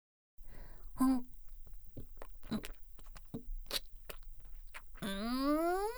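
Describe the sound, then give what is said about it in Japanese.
Crunchy chewing and biting on chiizu tara, a cheese-and-cod snack: many faint, sharp crunches and clicks at an irregular pace, with a brief voiced sound near the start and a voice rising in at the end. “ご主人様のおつまみチーズタラを食べてやる。”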